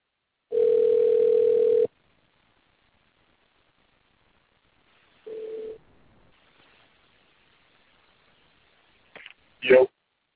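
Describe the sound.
A telephone dial tone after a call is cut off: a steady, loud, unbroken tone lasting over a second, then a shorter burst of the same tone. Faint noise and a couple of brief clicks follow.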